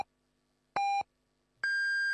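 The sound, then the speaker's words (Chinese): Hourly radio time-signal beeps: clean electronic pips, a short steady tone followed by a longer, higher-pitched final beep, sharp and clear against near silence. “现在是北京时间15点整”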